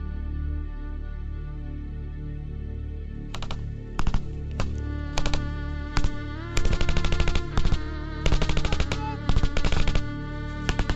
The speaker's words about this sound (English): 5 minutes on, and the gunfight continues. Come on, let's go, let's go! Keep firing, lads!